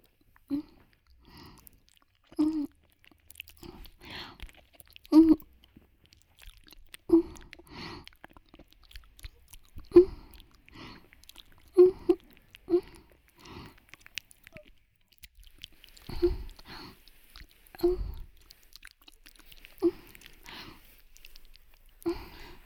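Wet, close chewing of food during mouth-feeding: many soft, irregular bites and squishy crunches, spaced a few seconds apart and sometimes clustered, quiet overall with no talking.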